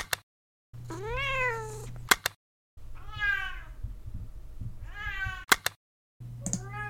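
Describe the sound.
A small cat meows several times. The calls are drawn-out and wavering, with rising and falling pitch, separated by brief silences. No one talks over them.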